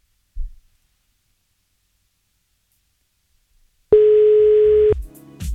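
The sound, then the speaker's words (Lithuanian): Outgoing telephone call ringback tone: a single steady, loud, mid-pitched tone lasting about a second, preceded by a faint low thump and near silence, and followed by a quieter mix of sound. “Skambino, nepasirašė kas, bet pabandykime susisiekti su Violeta. Kaipgi čia bus, ar atsilieps?”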